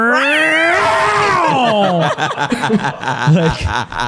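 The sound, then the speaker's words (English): A person's voice imitates a cat's horrifying scream in the middle of the night. It is a loud, wavering yowl that climbs and then slides down, then breaks into ragged, laughing sounds. “I would be woken up in the middle of the night by some just like horrifying sounding cat scream. You want to do it. You know you want to do it. I can't hit that octave, but it was similar to, it was like,”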